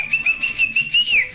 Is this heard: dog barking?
no